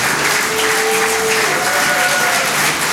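Audience applause at a live literary reading stage show: dense, steady clapping at an even, loud level throughout, with a few thin whistle-like tones riding over it.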